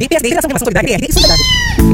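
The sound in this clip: A cat gives a single clear, drawn-out meow, loud and tonal, after a busy stretch of voice-like sound.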